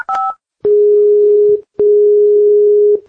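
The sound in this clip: Telephone line tones while placing a call in Brazil: a brief two-tone beep, then two long, steady, mid-pitched tones separated by a short gap. The tones are loud and clear, with no talking.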